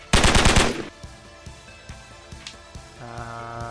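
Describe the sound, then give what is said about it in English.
A short, loud burst of submachine gun fire opens with rapid overlapping shots, then gives way to faint scattered clicks and a steady hum that rises near the end. “He points his submachine gun at you, Spiggs, because he saw you blow away his friend, and he's going to fire.”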